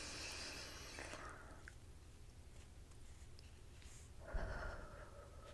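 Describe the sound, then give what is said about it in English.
A patient draws a deep breath in during a doctor's lung check, a soft, airy hiss lasting over a second, with a second faint breath sound later. “Now, again, just deep breath in.”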